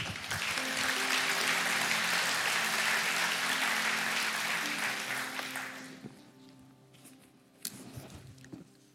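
An audience at a church service applauds to welcome a couple to the stage. The clapping is thick and steady for about six seconds, then dies away into near quiet with a few stray claps.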